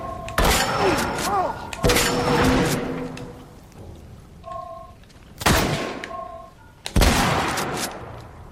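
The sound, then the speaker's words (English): Pump shotgun fire in a video game: four heavy, booming blasts at irregular intervals, each with a sharp onset and a short decay, with fainter game sound effects in the gaps. “Let's use the shotgun.”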